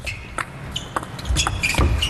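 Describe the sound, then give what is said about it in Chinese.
Table tennis backhand serve with the paddle striking the ball: a few faint, short, sharp ticks over a low rumbling background. “好，我们看看暂停回来。阿普拉还是反手发球，”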